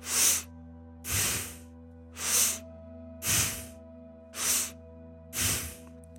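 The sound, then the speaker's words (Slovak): Rapid nasal breathing, six sharp, evenly spaced airy bursts through the nose, each one brief and forceful, over a faint steady low hum. “urobme spolu 5 rýchlych nádychov a výdychov nosom. Bude to vyzerať asi takto.”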